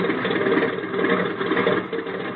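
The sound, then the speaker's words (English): Airplane engine idling as the plane taxis and turns around, a steady, fairly loud droning hum that holds even throughout, with no voices over it. “Hey, you're turning the plane around. Certainly. Now we taxi.”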